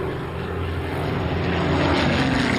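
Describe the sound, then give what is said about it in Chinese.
Spitfire fighter planes flying over a bridge: a loud, continuous propeller-engine roar that fills the whole clip and swells slightly as it goes. “英国喷火式战斗机飞过桥梁，查看他们的情况。”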